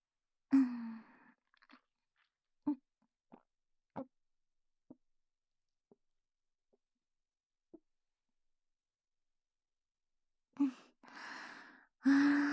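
Chewing and eating a snack makes sparse, soft crunchy clicks spaced across a quiet stretch, followed by louder breathy sounds near the end.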